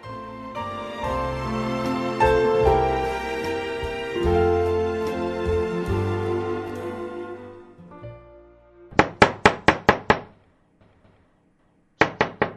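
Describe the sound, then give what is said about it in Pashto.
Knocking on a house door comes after a musical passage. A quick, even series of sharp raps is followed by a short pause and then a few more knocks. “ته چې کور ته راځې نو ته دروازه ټکې”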